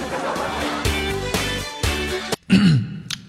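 Someone clears their throat once after eating instant noodles, a short rasping burst that follows music.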